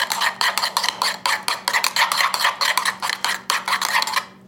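A spoon stirs salt and garlic into a yogurt mixture in a bowl, making many quick, rhythmic scraping strokes that stay fairly loud and steady before stopping abruptly near the end.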